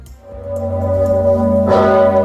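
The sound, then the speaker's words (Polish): The great bell of Wawel Cathedral in Kraków, swung by bell-ringers pulling ropes on Independence Day, rings with a deep, loud, sustained tone and rich humming overtones, and a fresh strike swells the sound partway through. “Najsłynniejszy dzwon w Polsce dzwonił przez 8 minut. Jak zwykle kolos został uruchomiony przez wawelskich dzwonników, którzy pociągali za sznury.”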